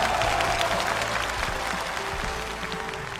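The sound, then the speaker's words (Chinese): Audience applause welcomes two Peking opera performers onto the stage of a live variety show. Dense, steady clapping continues throughout, easing slightly toward the end. “让我们掌声有请两位老师台下换装。欢迎两位老师来到我们的戏语秀，欢迎你们。”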